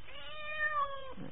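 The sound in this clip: A cat gives a single drawn-out, tonal meow lasting about a second, clear and alone with no other sound around it.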